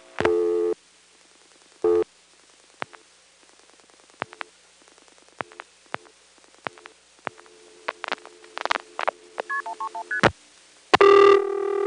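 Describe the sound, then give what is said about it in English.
Telephone dialing of a call to a working number through a 758 exchange and Centrex system: noise bursts, a long string of sharp clicks, then quick multi-frequency tone bursts and a loud burst at the end. “But anyway, here's a call to a working number, 7586131.”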